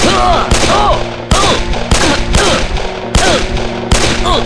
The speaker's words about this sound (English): The man jerked and stumbled each time the lead struck him, the bullets driving him back against the bar.